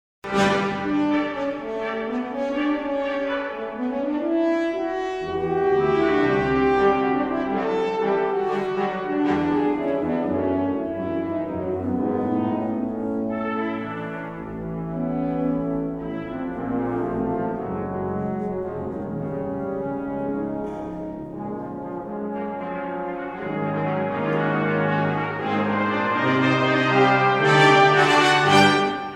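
A piece for two horns and brass ensemble plays throughout: rich, sustained brass chords with layered harmonies, swelling and shifting, loudest near the end, with no talk.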